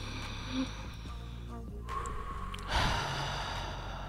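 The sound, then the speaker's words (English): Deep belly breathing, drawn in through the nose and let out through the mouth, comes as a few soft, airy breaths and sniffs over a low steady hum. “when you breathe in, you're going to poke your belly all the way out. Breathe in through your nose and then out through your mouth. Let's do that 3 times.”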